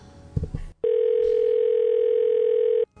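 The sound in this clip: A phone call rings out after a few brief clicks and noises: a single long, steady ringback tone holds for about two seconds and then cuts off.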